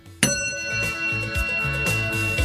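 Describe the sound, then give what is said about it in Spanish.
A small singing bowl is struck once and rings on with a bright, sustained metallic tone and steady overtones that hold evenly to the end. “¡Ahí está! ¡Ahí está! ¡Me encantó! ¡Me encantó el cuenquito!”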